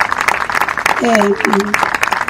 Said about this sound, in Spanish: también me parece que es importante reconocer y darle un fuerte aplauso a este gobierno popular